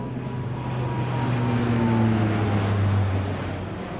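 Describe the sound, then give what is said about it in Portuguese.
An airplane passes overhead with a broad, steady roar and low droning tones that swell gently toward the middle and ease off again, with no other sounds. “Será um aspirador, um avião ou um camião? Sim, é isso. É um avião a passar.”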